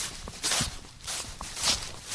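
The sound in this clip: Footsteps of two people walking through a yard: a few soft, faint, irregular steps with a scuffing texture.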